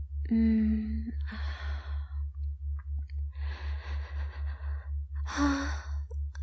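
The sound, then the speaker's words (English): A long, deep breath drawn in, a short pause, then a longer, airy breath out. Brief voiced sounds come before and after, all over a steady, soft pulsing low tone. “I am going to take one long breath. In for a count of three.”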